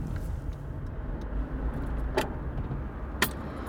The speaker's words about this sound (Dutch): We zitten nu in de wagen van Yves, een Renault Espace, een monovolume.